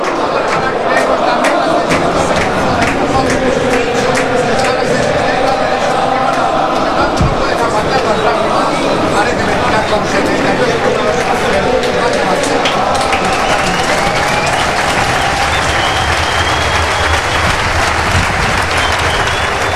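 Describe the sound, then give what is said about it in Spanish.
Burgos CF football fans applaud in the stadium at the end of the season's match, a continuous loud roar of clapping and crowd noise with people talking over it. “Así es como reconoce la afición del Burgos Club de Fútbol el esfuerzo, el temporadón que ha hecho el equipo entrenado por Luis Miguel Ramis.”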